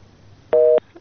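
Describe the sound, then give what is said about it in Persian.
A telephone busy tone after a dropped call: one steady, loud electronic beep, then the start of a second beep after a short gap, with no speech. “متاسفانه که تماسی شنونده ما قطع شد.”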